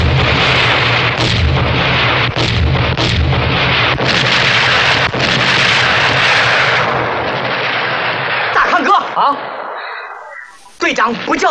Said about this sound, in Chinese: 敌人的炮火打得很厉害呀！停止射击。